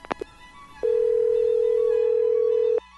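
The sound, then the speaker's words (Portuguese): A telephone line rings after dialing. A few quick clicks come first, then one long, steady buzzing tone of about two seconds stops abruptly. “Deixa eu plugar a linha aqui. Discar. Tá chamando.”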